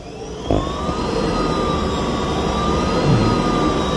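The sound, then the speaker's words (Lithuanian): A stationary car's engine revs as the accelerator is pressed: a sudden onset opens a sustained droning rumble with a thin whining tone that climbs slightly, held at steady loudness to the end. “Variklis jisai pradeda skleisti garsą tik tai, kai spaudžiam akceleratorių, na tai tiesiog, kadangi dabar stovim, galima spustelt.”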